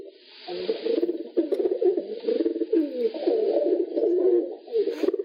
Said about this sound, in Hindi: कौन सी आवाज है ये, किसकी आवाज है। कबूतर की आवाज है।